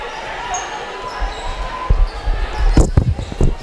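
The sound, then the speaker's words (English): A basketball dribbled on the court during a game: a few low, thudding bounces come in quick succession in the second half, growing louder over a steady background hum. “Left wing, dribbling to the middle.”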